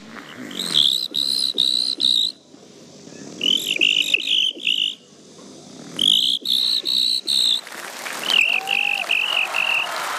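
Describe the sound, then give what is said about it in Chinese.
A human voice imitates a cricket with high, rapid chirping pulses grouped into several short bursts separated by brief pauses. The chirps are fairly loud and have an insect-like buzz. “给我学一只蟋蟀。 听好了，蟋蟀来”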